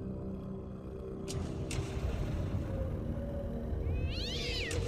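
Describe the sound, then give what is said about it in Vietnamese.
A pair of tired cats meow in a yard in the wind. A faint, wavering meow rises near the end over a steady low rumble and hiss, with a couple of brief clicks earlier and no voices. “Phía của thầy Long, đôi mèo dường như đã thấm mệt. Chúng không còn ánh mắt hung hãn như trước nữa”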